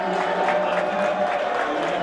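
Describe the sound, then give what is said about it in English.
Paris Saint-Germain football fans cheering as their Champions League-winning team approaches: a sustained, fairly loud roar of many voices at a steady level. “They must be on their way because they're now cheering.”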